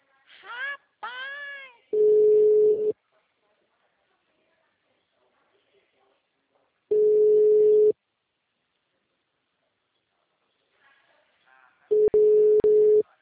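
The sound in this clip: Ringback tone of an outgoing telephone call: three steady, mid-low beeps, each lasting about a second and spaced roughly five seconds apart, with brief voice sounds near the start.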